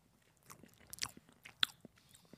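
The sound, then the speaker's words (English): Biting and chewing warm chocolate pudding with a soft chocolate ganache middle: soft, wet mouth sounds with a few sharper crunchy clicks scattered through, fairly quiet, and no talk. “So we are now about to have a bite of the... of this warm chocolate pudding.”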